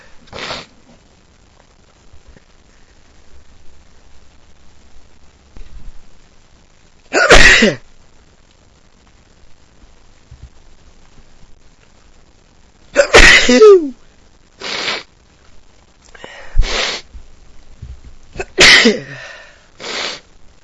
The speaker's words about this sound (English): I guess there's dust in them, because they're sure making me sneeze.